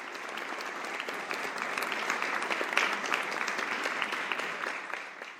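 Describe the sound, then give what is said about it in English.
A standing ovation from an audience as family members come up to the stage: dense, steady applause of many hands, holding at an even level throughout with no voices over it. “As members of her family came up to the stage, the audience gave a standing ovation.”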